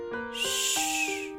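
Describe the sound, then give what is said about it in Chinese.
Owl hooting: several tonal hoots in quick succession, each with a soft breathy hiss, fairly faint and without talk. “猫头鹰呜呜的叫”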